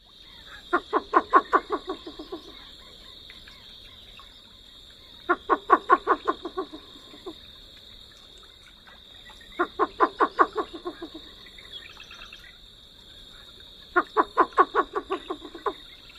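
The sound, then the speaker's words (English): A least bittern in a marsh gives its typical call: four evenly spaced series of rapid, low, hollow cooing pulses, each a quick run of several notes, separated by quiet pauses over a steady high-pitched background tone. “The least bittern is mostly an eastern bird, but it can be seen in parts of California and the extreme southwest of Utah on occasion. So I won't spend a ton of time on it, but here is its typical sound.”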